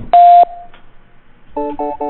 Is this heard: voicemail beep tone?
yes